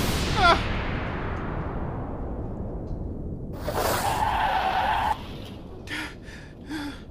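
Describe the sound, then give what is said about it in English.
Car tires skidding as a vehicle drives through a border crossing: a loud screech of about one and a half seconds rises out of continuous rushing noise, followed by a few brief sharp bursts. “Hey, senor, you're gonna get hurt driving like that.”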